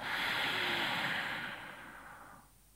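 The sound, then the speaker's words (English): A deep breath through the nose, heard as a long, soft rush of air that holds steady and then fades away, with no other sounds. “And then you inhale quite deeply. So you feel that inhalation. You can even hold it as a pause. And then exhale. This is in through your nose and out through your nose.”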